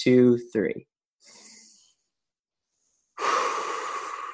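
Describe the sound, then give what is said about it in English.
A deep breath drawn in through the nose, then a long, gusty exhale out through the mouth. A brief spoken voice comes first, then the soft, airy inhale, a silent pause, and the louder outward breath. “on the count of three, we're just going to take a deep breath in through the nose and out through the mouth”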